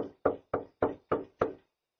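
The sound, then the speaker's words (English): Knocking at a door: five sharp, evenly spaced raps in a quick, steady rhythm, each fading fast before the next, then silence. “Knock at the door. Fortunately, there's a Ring camera.”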